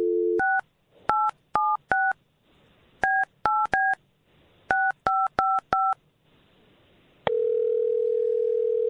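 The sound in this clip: A telephone number is dialed on a touch-tone phone: a brief dial tone, then many quick two-note keypad beeps in short clusters, followed by a steady continuous tone.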